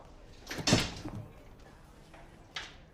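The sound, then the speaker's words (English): A car door opening and closing, heard as a few soft, muffled clunks over a low, steady background hiss. “then opens a car door”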